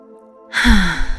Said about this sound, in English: And to once again honor our time together, let's enjoy a deep breath.